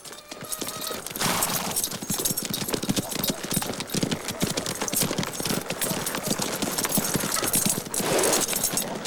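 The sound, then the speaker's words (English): Horses' hooves clip-clop steadily as a band of riders enters a town in a Western film, with many overlapping hoof beats keeping a busy, even rhythm from start to finish. “The regulators ride into a town.”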